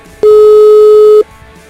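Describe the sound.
A telephone busy signal on a line being dialed: a single loud, steady electronic tone that holds for about a second, then stops, with no voices.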